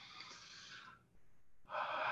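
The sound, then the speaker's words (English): A person breathes deeply during a guided breathing exercise, making two long, airy breaths with a short pause between them, soft and faint. “I'm breathing deeply.”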